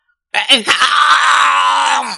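A cursed sorcerer's unwilling roar, voiced by a person: a loud, strained groaning howl lasting about two seconds that bursts in sharply, holds at full strength, then trails off abruptly.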